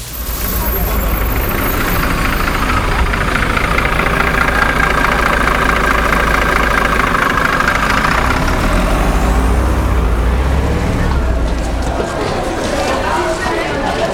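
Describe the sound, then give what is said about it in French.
Heavy diesel rumble of a line 15 city bus, its engine running steadily and loud for the whole stretch with little change in pitch. “On prend le 15. Direction Saint-Marc-Hydromel.”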